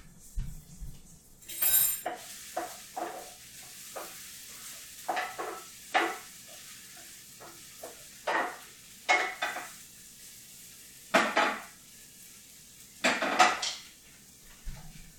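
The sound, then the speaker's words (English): Mushrooms being stirred as they fry in a pan: many scraping clinks of a utensil against the pan in an irregular rhythm, over a faint steady sizzle, with no talk. “Okay, I'm gonna stir those mushrooms.”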